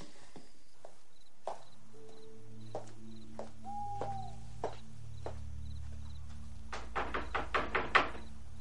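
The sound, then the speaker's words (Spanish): Knocking on a door on a dark street: a few scattered dull thuds give way to a quick run of louder raps near the end, over soft sustained music. “Mientras, Blanca anda por una oscura calle y llama a una puerta.”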